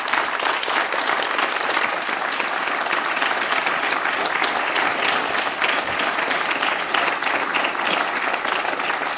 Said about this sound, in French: je voudrais que le public te remercie aussi, comme il se doit.